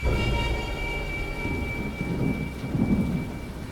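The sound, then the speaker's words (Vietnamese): Deep thunder rumbles in a continuous low roll that swells and eases slightly over a steady rain-like hiss, with no voices. “Tiếng sấm động vang vọng”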